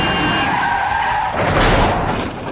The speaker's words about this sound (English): He steps off the pavement, causing a camper van to swerve and crash.